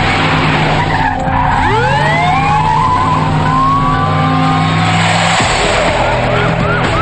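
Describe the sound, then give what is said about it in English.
Engine roar and tire squeal from a police car speeding through an alley and onto a city street during a chase, with shrill skidding tones sweeping upward over a steady low engine drone that runs the whole time. “Joel gets into an empty police car and speeds toward David, who is driving away through a different exit.”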